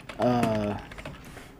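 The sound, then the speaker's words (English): Typing on a computer keyboard: a short run of quick, light key clicks, with a steady tone over the first half. “Just type in hold on. I'm gonna type this in right.”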